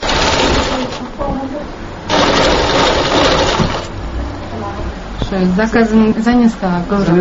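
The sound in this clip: A sewing machine whirs steadily as a woman stitches an item in her room at a small rural sewing workshop, the motor noise swelling louder through the middle before a voice starts speaking over the fading machine.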